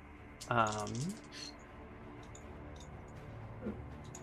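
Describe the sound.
A few quick, light clattering clicks of dice rolled during a tabletop role-playing game session, bunched together early on, with a voice briefly heard alongside them.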